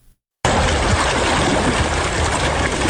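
A fast-flowing river in Helmand rushes past its banks in a loud, steady wash of water noise that starts abruptly after a brief near-silent moment and then holds without a break.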